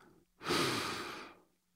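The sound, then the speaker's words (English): A single deep breath, a broad, airy rush that swells quickly, holds for about a second and then fades away. It is heard on its own, with no speech around it. “let's take a deep breath.”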